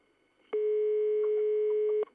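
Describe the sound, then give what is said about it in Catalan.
A telephone line tone sounds while a technician places a call to another number. One steady, buzzy mid-pitched tone lasts about a second and a half over faint background noise. “El tècnic està trucant a un altre número.”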